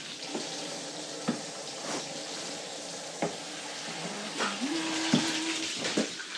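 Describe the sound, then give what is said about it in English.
Tap water runs steadily as hands are washed under it, giving a continuous hiss broken by a few short splashes and knocks, with a low tone holding steady in the second half and no talking. “Let me wash my hands.”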